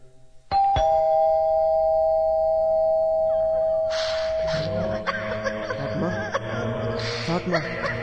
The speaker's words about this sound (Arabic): ندق الجرس.